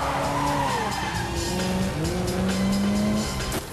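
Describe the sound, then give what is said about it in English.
Tires skid and squeal loudly during a car chase in which one car rams another, high sustained screeching tones sliding in pitch over a steady roar of engines for nearly the whole stretch. “A car rams into Rassan's tail.”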